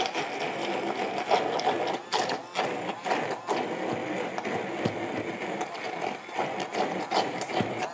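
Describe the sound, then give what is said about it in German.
Blender puréeing cooked vegetables, including parsnip: a continuous whirring, grinding motor with uneven rattling fluctuations that holds a fairly steady level throughout. “Und jetzt gebe ich die mal zum Pürieren. Ich lege los.”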